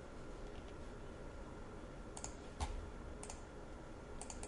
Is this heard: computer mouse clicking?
yes